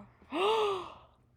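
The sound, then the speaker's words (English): A single sharp, breathy gasp, voiced and fairly faint, rising quickly in pitch and then easing off as it fades, heard alone. “I don't know why we gasped at that”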